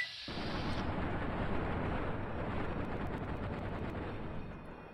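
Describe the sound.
Video game gunfire aimed at a Mr. Gutsy Mark IV combat robot: a dense, continuous roar of rapid shots that stays loud for several seconds, then tapers off near the end, with no voices.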